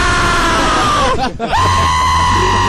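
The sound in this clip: A loud, frightened scream, voiced as an imitation of someone else's scream. The strained, high cry dips sharply in pitch midway, then climbs back and holds a steady high tone to the end.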